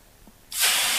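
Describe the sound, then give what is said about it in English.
Steam bursts into a loud, steady hiss as water hits hot sauna stones, starting abruptly after a brief quiet moment and holding at full strength to the end. “This is the sound of sauna.”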